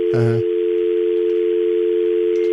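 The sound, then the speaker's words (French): A telephone dial tone sounds after a caller's line has dropped: a steady, loud tone at one even pitch, preceded by a brief voiced sound at the very start. “Allô? Oh. Allô? Oh, il est tombé.”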